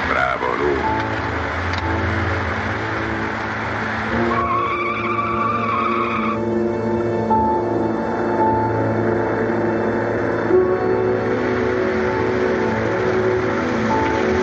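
A car driving at speed jumps a road's median and swerves into the opposite lane, with a continuous engine roar and screeching, skidding tires throughout.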